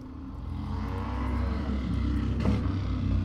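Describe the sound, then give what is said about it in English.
Many motorcycles drive past a house in a continuous, loud engine roar that builds slightly as it goes, with no voices. “lots of motorcycles driving by my house.”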